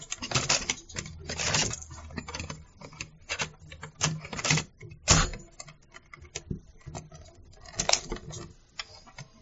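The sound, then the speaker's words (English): Cassette tape being turned over in a recorder, heard as a dense, uneven run of many clattering clicks, knocks and rustling handling noises. “Let me just turn this tape over.”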